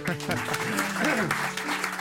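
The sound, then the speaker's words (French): An audience applauds, a quick patter of many hands clapping under talk, with voices and a moderately loud, steady texture of claps throughout. “On l'applaudit.”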